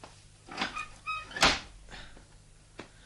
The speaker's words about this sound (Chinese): 我开门啦。